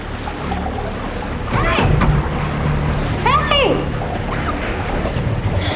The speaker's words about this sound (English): She looks down and notices that water is starting to fill a glass box that she is trapped in.